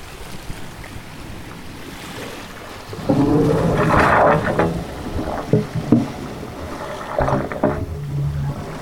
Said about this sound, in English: Getting some good wave sounds over here for you.